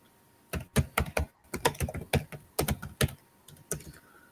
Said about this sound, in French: Tape plus fort sur tes pitons.